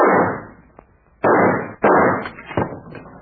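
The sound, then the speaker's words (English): Gunshots fired to blast the handle off a vault ring out as a few loud, sharp reports, each with a decaying tail, separated by short gaps, with a smaller crack near the end. “Stand back. I think I can shoot that handle off.”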